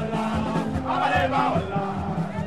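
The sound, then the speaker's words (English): Crowd of supporters outside the airport in Port-au-Prince, Haiti, welcoming former president Jean-Bertrand Aristide home from seven years in exile: a loud, continuous mass of shouting and chanting voices. “Supporters welcomed him outside the airport.”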